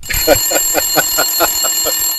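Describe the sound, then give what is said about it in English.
A bell rings in a rapid, even run of bright metallic strikes, like an alarm bell, over a thin high steady tone. The strikes are loud and regular, with no talk. “Saved by the bell there.”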